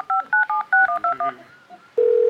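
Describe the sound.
Touch-tone keypad beeps as a phone number is dialed to call a friend during a quiz game: a quick run of short, even electronic tones, then a brief pause and a steady continuous tone.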